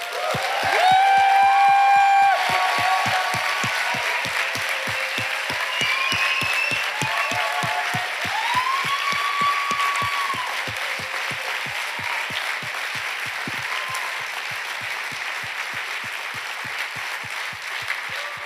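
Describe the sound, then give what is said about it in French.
A church audience at a worship service claps in a steady, rhythmic beat, with raised voices and cheers carried over the many claps. It is loudest at the start and eases slightly as it continues. “Alors je vous propose d'acclamer Dieu maintenant pour sa grandeur et pour ses bienfaits dans nos vies.”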